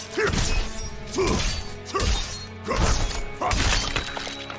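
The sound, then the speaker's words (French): Heavy crunching, shattering blows as a bone wall is broken in the video game Diablo IV, several loud impacts arriving at a steady, regular pace. “Et ça sert à quoi de casser le mur d'os”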